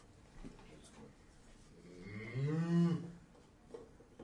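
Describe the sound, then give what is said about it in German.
A cow moos on a farm where a tractor has been driving in and out, as the animal comes to graze on grass: one low, drawn-out moo rising out of faint background noise midway through. “Jetzt kommt da die Kuh auf. Die will ein bisschen Gras fressen.”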